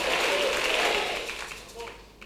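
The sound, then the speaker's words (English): A church audience claps their hands during a sermon, the clapping loud at first and then thinning and fading, with a voice heard briefly near the end. “My sons and my daughters, clap your hands and say, I'm ready for change.”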